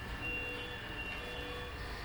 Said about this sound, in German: Die Sauerstoffwerte im Blut nehmen ab. Das Kontrollgerät schlägt Alarm. Immer öfter.